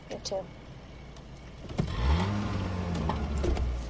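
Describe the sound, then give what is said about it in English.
A car pulls away down a dim suburban street at night: after a brief thump, a low engine rumble swells and its tone climbs steadily as the car accelerates, holding a fairly loud, continuous drone to the end. “Their car takes off, cruising down the dim suburban street.”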